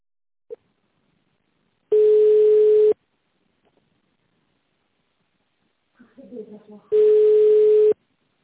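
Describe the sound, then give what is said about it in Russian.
Telephone ringback tone plays as an automated system connects a call: two long, steady, mid-pitched beeps, each about a second, separated by several seconds of near silence with a few faint brief sounds. “Оставайтесь на линии. Система соединяет вас.”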